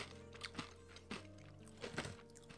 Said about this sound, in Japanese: ニンニクバターの牛ステーキ味というやつをいただきます。